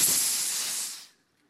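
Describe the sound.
A voice imitates a snake's hiss, playing the serpent tempting Eve: one breathy, sustained hiss lasting about a second before it trails off into silence.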